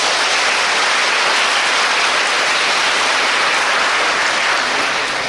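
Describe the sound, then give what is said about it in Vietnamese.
A big round of applause from the audience at a Buddhist dharma talk: loud, dense, continuous clapping that sounds like a hiss, steady from start to finish with no voices. “Xin một tràng pháo tay thật lớn.”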